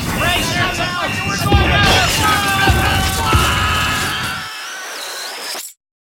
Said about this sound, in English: If I am not mistaken, we are being fired upon.